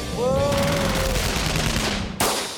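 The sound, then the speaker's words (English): Gunfire, a dense, noisy burst of rapid shots that stays loud throughout and ends with a sharp crack. “I thought we weren't going to talk about guns. Okay. Well, nobody was talking about them. Nobody was talking about them. People were just listening to them.”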